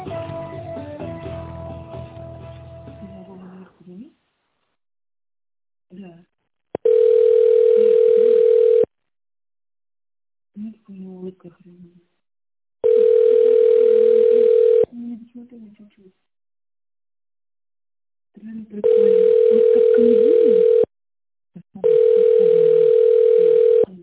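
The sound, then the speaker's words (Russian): A ringback tone sounds on a phone line while holding to be connected to a company secretary. A recorded voice speaks first, then four steady, even tone bursts follow with quiet gaps between them. “Или оставайтесь на линии для соединения с секретарем.”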